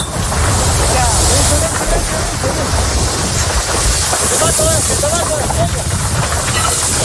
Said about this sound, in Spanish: escuchen este otro sonido. Son miembros del Infoca, intentan apagar el fuego, pero las llamas crecen y se acercan peligrosamente hacia ellos.